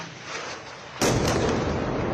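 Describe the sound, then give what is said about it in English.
An airstrike explosion hits a building in the busy commercial district of central Beirut: one sudden, loud blast breaks out of a steady background hiss and keeps roaring on as a dense, rumbling wash. “The IDF bombed this building in central Beirut twice.”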